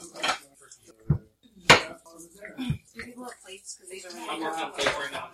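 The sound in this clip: Clattering dishes and cutlery as dishes are rinsed and washed in a farmhouse kitchen: sharp knocks and scrapes come in irregular bursts, mixed in with ongoing conversation.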